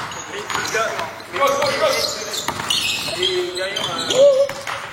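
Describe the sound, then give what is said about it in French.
Basketball shoes squeak on a court: many short, sharp, high-pitched squeaks in quick irregular bursts over steady court and crowd noise. “c'est pas le basket, c'est le bruit du couinement des chaussures. Pourquoi les chaussures de basket font-elles ce bruit horrible?”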